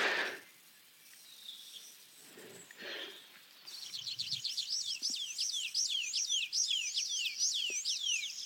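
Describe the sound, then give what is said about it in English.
Two tree pipits sing in a Brecon Beacons dawn chorus. After a quieter stretch with faint other sounds, a fast series of high, sharp, repeated descending chirps starts and carries on steadily to the end. “There we go, there's two tree pipits fighting it out there.”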